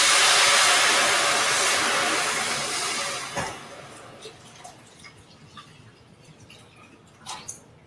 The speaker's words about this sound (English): And then we're gonna add the veggie stock. We've got our 4 cups of veggie stock going in here.